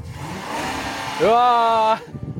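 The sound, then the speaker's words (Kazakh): A car engine revs as the driver presses the gas. After some quieter rumble with talk, a single loud rev climbs quickly in pitch, holds steady for under a second, then cuts off abruptly. “Газ басып көрсей, қорықпа.”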